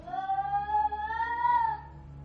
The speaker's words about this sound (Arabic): تسمع صوت قطة جايلك من اليمين على قطة جايلك من الشمال على من قدام على ورا، قول إيه أنت مش شايف ولا قطة منهم. سرعت مشيتي وحرولت، صوت القطط ما بيقفش